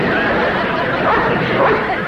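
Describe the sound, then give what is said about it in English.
A dog barks repeatedly amid a loud hubbub of people talking over it, continuous and busy throughout. “He's a smart dog. I'll get him. Oh, don't worry. Whose dog do you suppose that is?”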